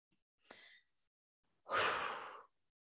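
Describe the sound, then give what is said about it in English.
A person breathes twice in quiet: first a short, soft breath, then a longer, louder, sighing one. “I'm just receiving a breath. Me loving myself.”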